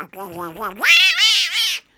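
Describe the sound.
A human voice imitates a cat meowing: a lower voiced lead-in gives way to a loud, high, wavering meow drawn out in a few swells before cutting off.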